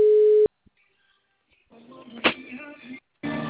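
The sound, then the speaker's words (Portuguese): A telephone tone sounds while a call is being placed: a steady half-second burst, then silence with a few faint clicks, a stretch of muffled line sound, and another tone burst at the end. “Vou ligar aqui.”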